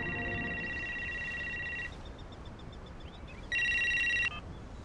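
A mobile phone rings with electronic ringtone tones: a steady high tone holds for about two seconds and fades out, then after a pause a louder, brighter burst sounds. No voices are heard.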